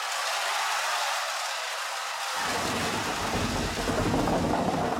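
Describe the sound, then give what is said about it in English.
Stage machines in a historic theater in Cesky Krumlov create a driving rainstorm with wind and thunder: a steady hiss of rain that is joined partway through by a deep, continuous rumble, heard alone at a fairly low level. “Even the weather was thrilling, with machines to make horrifying wind a driving rainstorm”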